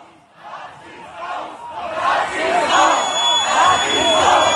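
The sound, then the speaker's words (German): A crowd of neo-Nazis shouts as they form up and march, many overlapping voices yelling that grow steadily louder. “Ja, wir hören die Nazis raus, Rufe und wie sich die Herde, anders kann man es ja gar nicht sagen, formiert und den Kollegen von Apollo hinterher marschiert.”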